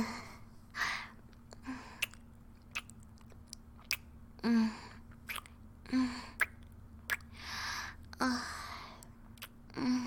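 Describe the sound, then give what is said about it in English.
A person chewing a bite of chocolate, with soft, wet mouth sounds and breathy exhalations at irregular intervals. The sounds are faint, and a low steady hum runs beneath them. “Take a bite. Good, huh?”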